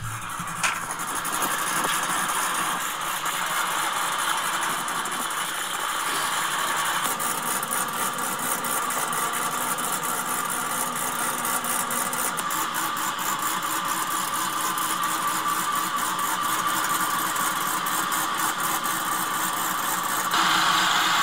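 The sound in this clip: A car motor idles for about twenty seconds, a steady, even rumble with a faint mechanical hum and no noticeable revving or talk.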